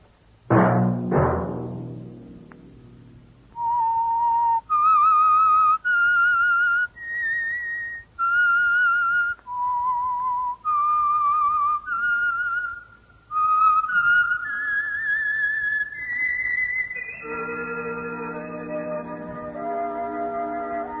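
A whistled tune of clear, pure notes, a melody of sustained pitches rising and falling with short pauses between phrases, loud and alone, ending on a long held note over a fuller musical chord.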